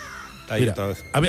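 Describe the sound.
A crow caws three times in quick succession, each call harsh and raspy, with a short gap between the second and third. The calls are fairly loud against a quiet background.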